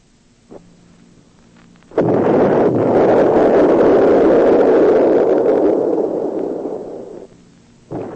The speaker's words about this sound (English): Why is there so much dust in the air? They're blasting at the mine to break up ore.